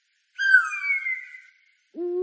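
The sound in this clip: An eagle owl hoots with a long, drawn-out tonal call. After a short pause, a second, lower hoot begins and is cut off at the end.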